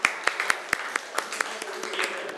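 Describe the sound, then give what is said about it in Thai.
Students clapping their hands in a classroom lesson: a steady run of many crisp, separate claps at an even pace, fairly faint and alone. “นักเรียนปรบมือให้ตัวเองหน่อย”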